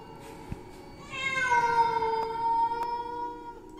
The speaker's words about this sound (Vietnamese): Sau đó họ nghe rõ là tiếng mèo. Kỳ lạ là không phải loài mèo nhà, mà là tiếng mèo hoang, những con mèo rừng đang kêu lên ghê rợn ở bên kia dòng suối.